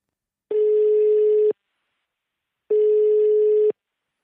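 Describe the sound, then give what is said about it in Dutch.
A telephone ringback tone plays while a call is placed: two steady, mid-pitched tones of about one second each, separated by a silent pause, with nothing else heard. “Dus ik zou zeggen, laten we maar gaan bellen.”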